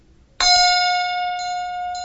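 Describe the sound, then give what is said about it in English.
A bell is rapped once with a hammer, giving a sharp metallic strike that rings on as a bright, sustained tone and fades only slightly. “I give this here bell a rap with this here hammer.”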